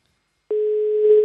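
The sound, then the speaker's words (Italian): A telephone ringing as heard down the line, a ringback tone: after a short silence, one steady, pure, mid-pitched tone starts abruptly and holds unbroken to the end. “Senti come squilla. Magari sta ascoltando, non risponderà mai”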